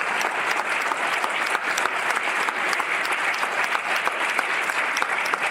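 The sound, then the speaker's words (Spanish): An audience applauds strongly after a guest is introduced at an event, a dense, steady clatter of many hands clapping at an even level throughout, with no voices standing out. “Un aplauso fuerte.”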